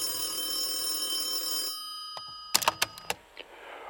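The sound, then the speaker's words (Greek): A bookshop telephone rings before an answering machine takes the call: a bright, metallic ring runs for under two seconds and stops, then a few sharp clicks follow in quick succession. “Νωρίτερα εκείνη τη μέρα, ο Μαστρομέρας έλαβε ένα μήνυμα στον τηλεφωνητή του βιβλιοπολίου.”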